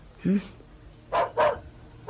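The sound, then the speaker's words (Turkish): Dogs barking at a police scene, a few sharp, loud barks spaced through the short stretch, with a voice also heard. “Hey! Köpeklere dikkat edin. Tutun şunları.”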